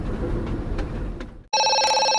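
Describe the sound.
A telephone rings: a bright, loud electronic ringing starts abruptly after a stretch of noisy rumble and holds steady to the end.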